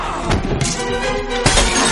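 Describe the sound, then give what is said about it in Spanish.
A vase shatters as it is smashed over someone's head during a brawl: loud, dense crashes with a few sharp breaking bursts that ring bright and noisy throughout. “luego le rompe un jarrón en la cabeza”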